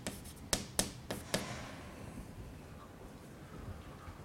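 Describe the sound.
Writing on a board during a math lecture, as an adjugate matrix is put down: four sharp taps come in quick succession in the first second and a half, followed by faint, quiet scratching.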